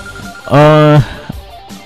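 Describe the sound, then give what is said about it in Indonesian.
A telephone ring as a listener calls in to a radio show: one loud, steady buzzing tone lasting about half a second, flat in pitch. “Dan kali ini Rekan Sebaya juga sudah ada yang berdering ya. Saya terima dulu penelpon pertama kita di program acara Citra Malam Mingguan Rekan Sebaya.”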